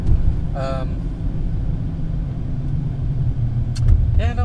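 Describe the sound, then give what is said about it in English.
A car drives in Saturday traffic on the 91 freeway, giving a steady, heavy low rumble throughout, with people talking briefly near the start and end. “is this normal Saturday traffic in Inland Empire? Yeah, well, this is the 91 freeway.”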